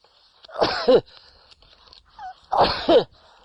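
Two human sneezes, each a sharp, loud burst with a breathy intake and a quick forceful release, separated by a couple of seconds of faint background sound.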